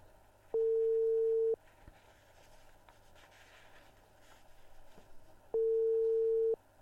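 Ringback tone of an unanswered telephone call: two steady, mid-pitched tones, each about a second long and roughly four seconds apart, with faint hiss and rustling between them.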